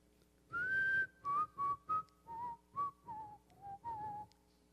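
Someone whistles a cheerful melody as a string of clear, piping notes that step gradually downward in pitch. The whistling is alone and quite soft, with no voices.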